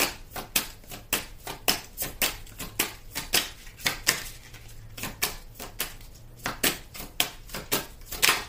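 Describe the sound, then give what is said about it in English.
A deck of cards is shuffled in a long run of many crisp, quick snapping taps. The rhythm is uneven and the sound is fairly soft, with no talking. “I'm just going to do a quick shuffle on this deck.”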